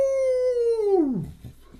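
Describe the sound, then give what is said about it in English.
An animal howling at the moon: one long, loud, tonal howl that holds a steady pitch, then slides downward and breaks off into faint rough noise. “And then they raised their heads to the moon and howled.”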